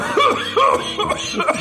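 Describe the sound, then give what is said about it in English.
Coughing from an anti-smoking public service spot about a young woman with emphysema: a few harsh, voiced coughs come in separate bursts, loud and alone, without any talk. “The girl with emphysema goes coughing.”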